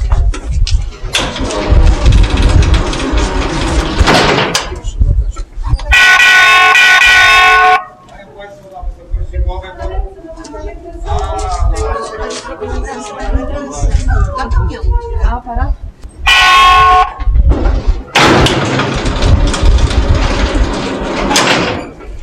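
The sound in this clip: Loud, buzzing signal blasts sound in the shaft of the Kłodawa salt mine while the hoist lift runs at six metres per second, with a heavy rumbling roar between the signals and people talking over it.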